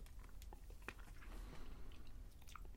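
Quiet chewing of real black licorice candy, with soft irregular squishy bites and small crunchy clicks that continue steadily, alone with no talk.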